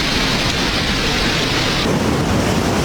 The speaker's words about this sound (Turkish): Barbaros Caddesi her sağanak yağışta bu şekilde.